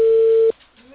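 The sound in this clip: Telephone ringback tone on an unanswered call: one steady, mid-pitched tone holds for about half a second, then cuts off abruptly into near silence.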